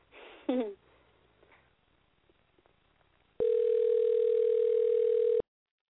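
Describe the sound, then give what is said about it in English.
A telephone dial tone sounds while a guest is being dialed: one steady, unbroken, loud tone holding for about two seconds before cutting off abruptly, after a short burst of sound and faint clicks earlier. “I think this is my first time actually dialing a guest on the show.”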